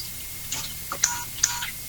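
Phone keypad tones sound as someone dials, a few short, high electronic beeps separated by brief pauses.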